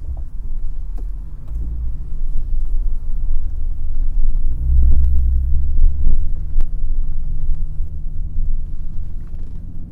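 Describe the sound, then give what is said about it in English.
Cars approach with a steady low rumble and throbbing hum that holds throughout, swelling slightly toward the middle. “Some cars coming.”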